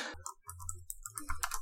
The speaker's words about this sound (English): No, I typed the end.